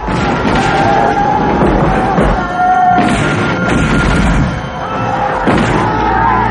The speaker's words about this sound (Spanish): Los soldados disparan desde las laderas cercanas a la misión. En el río. ¡Fuego! cañonazo mata a varios indios.